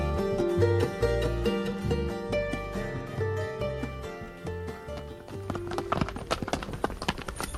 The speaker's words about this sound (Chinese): 马车咔嗒咔嗒的。行驶过一八五三年的伦敦街道